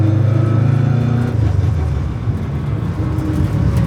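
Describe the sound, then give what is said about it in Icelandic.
A rally car's engine runs while the car drives, a heavy, deep rumble that stays steady with slight swells in loudness. No voices are heard. “Aðalega til þess að leifa hlustendum með mynd að heyra þessi vígalegu vélalhjóð.”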